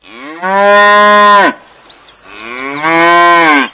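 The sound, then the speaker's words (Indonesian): A cow moos twice: two long, low, strongly harmonic calls separated by a short pause. The second moo starts softer and then swells. Both are loud and stand alone with no other sounds. “Suara apakah ini? Ini sapi.”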